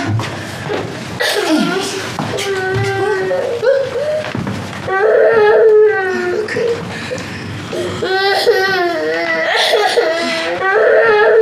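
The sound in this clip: A young child cries and wails in drawn-out, wavering sobs that rise and fall in pitch, loud and nearly continuous, with adult voices around it.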